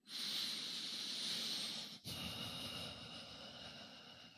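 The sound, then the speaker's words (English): A slow, deep breath, airy and hissing, drawn in for about two seconds and then let out for about two more, quiet and with no talk. “So maybe take a deep breath.”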